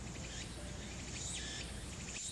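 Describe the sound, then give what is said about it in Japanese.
Faint, repeating buzzy phrases from a tsukutsuku-boshi cicada calling in the distance at summer's end, the high, rhythmic song looping steadily over low background noise. “遠くでつくつく帽子が鳴いている。セミの声が夏の終わりを感じさせた。”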